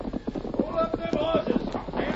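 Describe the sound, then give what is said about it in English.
Horses' hooves clip-clopping as riders come up, a quick, regular patter of many hoof beats, fairly loud and continuous throughout. “Hold up with them horses. Stay right where you are.”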